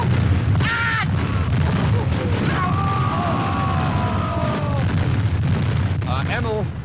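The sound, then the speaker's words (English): A booming, explosion-like rumble from king-size exploding cigars going off, loud and sustained for several seconds, with thin whistling tones sliding through the dense roar. “12 exploding cigars, king-size exploding cigars. Look out.”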